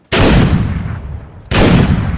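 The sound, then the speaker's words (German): Two loud pistol shots fired into paintings in a gallery. Each sharp blast is followed by a long, rumbling decay, and the two are spaced over a second apart. “stürmt Letzterer mit einer Pistole in die Galerie und ballert in seine eigenen Gemälde.”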